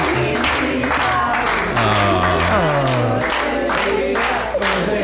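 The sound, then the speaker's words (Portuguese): A group of voices sings the happy birthday song in Portuguese together, with loud, sustained melodic lines over crowd noise. The singing is continuous and fairly loud throughout. “Também escolheste um som destes em que nós damos os parabéns aos outros. Uns aos outros, também fazemos isso. Também não é só na televisão. Isto foi na CMTV.”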